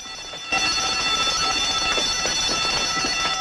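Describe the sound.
An alarm bell rings aboard a ship as the crew go to action stations. It starts sharply after about half a second, then rings as one loud, steady, unbroken tone to the end.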